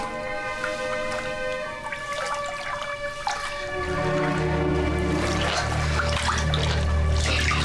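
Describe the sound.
Water churns and rushes as a child is held underwater, the watery noise swelling louder midway and staying heavy to the end, with sustained steady tones underneath.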